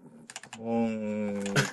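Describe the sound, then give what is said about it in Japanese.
Typing on a computer keyboard connected by USB to a talking robot: a few quick, crisp key clicks, followed by a sustained, voice-like tone. “とりあえずこのキーボードで打ち込んだら、ロボコが喋りますんで”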